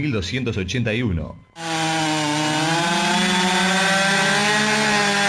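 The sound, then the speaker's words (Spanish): A Stihl chainsaw runs in a radio advert, a steady buzzing engine drone with strong harmonics that sets in abruptly after a brief voice and holds evenly to the end. “Stihl tiene la motosierra justa para lo que vos necesitás. Vení a los concesionarios Stihl.”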